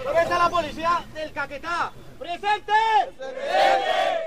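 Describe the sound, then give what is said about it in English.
Police and army soldiers at Laurandia Military Base in Colombia give the Colombian president a boisterous welcome. Loud group shouts and battle cries come in repeated rhythmic bursts from a crowd of voices. “Here at Laurandia Military Base, police and army soldiers offer a boisterous welcome to President Juan Manuel Santos.”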